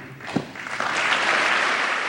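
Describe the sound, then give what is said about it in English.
Members of Congress on both sides applaud at length during President Trump's speech. After a single sharp knock, the clapping builds and swells into a full, even wash of applause that holds to the end. “Karen Owens' tears inspired a rare bipartisan moment of lengthy applause.”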